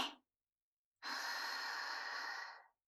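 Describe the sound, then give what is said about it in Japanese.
One long, deep breath, soft and airy, heard alone after the faint tail of an earlier breath. “一旦落ち着こう。はい、深呼吸して。”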